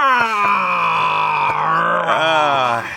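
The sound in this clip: A voice imitates a squeaking chair as a long, drawn-out groan: one loud, sustained, nasal tone rich in harmonics. It lasts about three seconds, its pitch sagging slowly downward with a wobble near the end.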